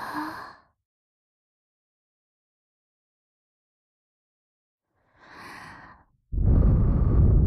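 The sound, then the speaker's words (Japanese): A mother's slow, calm breathing serves as a lullaby for a baby: one soft airy breath, a long silence, another gentle breath, then a sudden loud, close rushing exhale. “子守歌代わりにママの呼吸音を聞いてください。”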